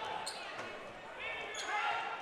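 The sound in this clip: A basketball is dribbled on the court during a game. The bounces sit low under a steady wash of crowd noise and a commentator's voice.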